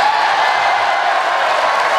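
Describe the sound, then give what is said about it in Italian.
Loud applause and cheering from Republican members of the US Congress during an address to Congress, a dense, sustained roar of clapping with raised voices and whoops. “Con grande applauso, ovvio, naturalmente, dei repubblicani.”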